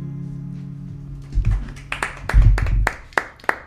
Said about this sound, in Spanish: Bueno, vamos a dejarnos de los aplausos mudos que nos gustan a nosotros aquí y te hacemos un aplauso sonoro porque ha estado muy bien esta canción.